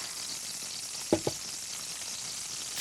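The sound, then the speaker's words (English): Chili mixture cooking in a pot while being stirred: a steady frying sizzle runs throughout, broken by two brief knocks close together partway through. “Cook this mixture for about an hour, stirring occasionally.”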